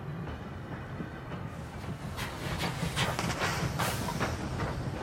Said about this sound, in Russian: Поезд движется вперед.